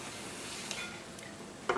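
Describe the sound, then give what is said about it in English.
Butter melting in a saucepan over heat that is not set high, giving a soft, steady sizzling hiss with a couple of faint clicks near the end. “So we're gonna go ahead and add our butter in the saucepan here and just, you know, let it melt.”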